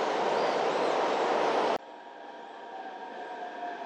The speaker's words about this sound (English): 十三陵景区站到了， We are arriving at Ming Tombs station。